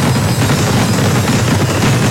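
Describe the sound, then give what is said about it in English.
Fireworks explode in a dense, loud barrage, a continuous crackling and booming with no clear gaps between bursts. “3, 2, 1. Big Thunder Fireworks.”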